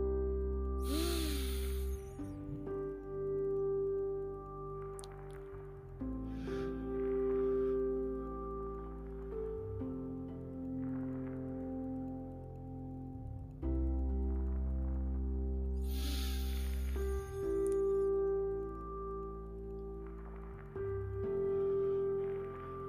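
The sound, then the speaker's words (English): Slow, deep breaths during a guided breathing exercise, drawn in through the nose and let out through the mouth, heard as two long, airy breaths spaced far apart over soft, sustained music. “we're going to close our eyes and we're going to breathe in through our nose as much as we can. Don't think about counting. Just breathe in as much as you can through your nose and then out through your mouth, right? Let's begin.”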